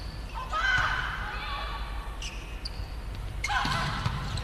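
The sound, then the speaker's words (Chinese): Hard volleyball spike from position two during a Liaoning versus Sichuan match: a couple of sharp ball impacts cut through steady crowd noise, with voices talking throughout. “哇，这个球二号位扣得很凶啊！”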